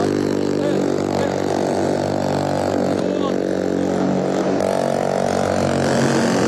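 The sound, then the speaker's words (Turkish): Engines of two assault boats arrive for a hostage-rescue demonstration by special forces commandos. A loud, steady, droning engine noise runs throughout with no clear pauses. “SAT komandolarını taşıyan iki atak bot alana geliyor.”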